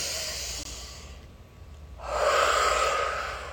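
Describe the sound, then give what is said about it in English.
A deep breath taken at the start of a guided prayer circle: a soft airy hiss, a brief quiet pause, then a louder, longer rush of breath that slowly fades. “I'm going to take a deep breath to get started.”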